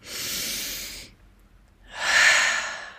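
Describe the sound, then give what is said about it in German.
Deep, airy breaths during a guided meditation: two long, loud breathy swells separated by a brief quiet pause, with no talking. “Atme nochmal ein,”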